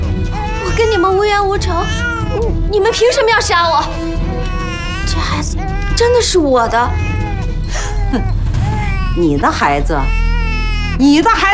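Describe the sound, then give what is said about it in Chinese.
An infant cries and wails loudly and without pause through the whole scene in a drama, a shrill, wavering sobbing with people talking over it. “你的孩子你不喂，让他哭成这样”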